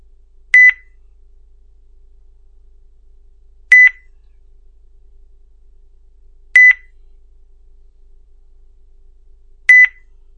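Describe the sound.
Four short electronic beeps from a phone line after a call is cut off, evenly spaced about three seconds apart, each brief and fairly high-pitched, heard alone over a faint low hum.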